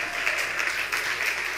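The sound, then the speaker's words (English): Audience applause at an event, a dense, steady wash of clapping that holds at an even, fairly loud level through the whole stretch without a break. “Let them stop clapping for a second.”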